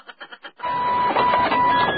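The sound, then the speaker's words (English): A printer runs with four short clicking pulses, then a steady mechanical whirring buzz with a faint sustained tone. “Printer's out of paper.”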